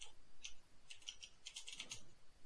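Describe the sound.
Typing on a computer keyboard, faint irregular keystrokes clicking in quick short bursts.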